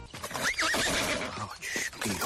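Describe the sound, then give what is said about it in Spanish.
A horse neighs in a loud, warbling whinny whose pitch wavers up and down, followed by further rough, breathy horse noises. “Todo gran hombre de la historia de España ha tenido su caballo. El Cid, Babieca, Don Quijote tenía a Rocinante, Jesús Gil a Imperioso y yo tengo a Derechita Valiente.”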